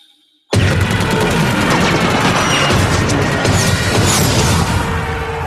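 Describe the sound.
Battle sounds from the trailer for Christopher Nolan's film Dunkirk erupt abruptly after a moment of near silence: a loud, unbroken wall of rapid gunfire, crashes and booms that never lets up.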